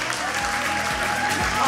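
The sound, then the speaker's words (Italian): Audience applause at a school presentation: dense, steady clapping fills the whole clip at an even level, with a faint sustained whistle-like tone running over it. “Un applauso.”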